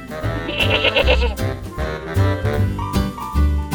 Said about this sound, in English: Listen and find. Goat.